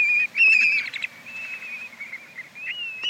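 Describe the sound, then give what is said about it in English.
Whistled flight song of a male black-bellied plover circling overhead above its Arctic tundra nesting grounds. Clear, high, loud whistles, brightest in the opening second, run into long sustained, slightly wavering notes with brief dips between them. “Here, a male circles overhead while giving its flight song.”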